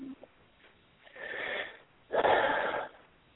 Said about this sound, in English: That's the kind of breath that heals. That's the kind of breath that heals. That's the kind that moves the energy.